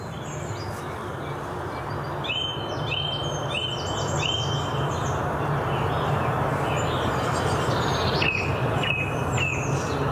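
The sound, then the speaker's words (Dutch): A song thrush sings in woods near Bilthoven about an hour after sunrise, repeating bright, clear phrases over a steady low rumble of busy traffic. “Zanglijster.”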